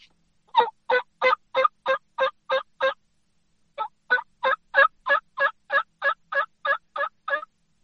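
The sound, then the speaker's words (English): A person imitates a turkey yelp with the mouth: a rhythmic run of eight raspy, evenly spaced notes, a short pause, then a longer run of about a dozen more at the same steady pace, with no other sound. “And then when we put it together for a yelp, it'll sound like this”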